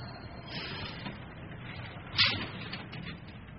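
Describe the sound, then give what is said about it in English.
An elevator descending: a steady, low mechanical hum, with one short, sharp clunk partway through. “Well, here's the elevator. Going down.”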